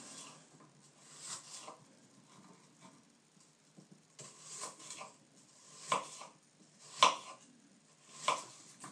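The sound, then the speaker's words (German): A knife slices a large onion into rings: a run of irregular, crisp crunching cuts, soft at first and growing sharper toward the end, with no talk. “Aus der größeren machen wir jetzt Zwiebelringe.”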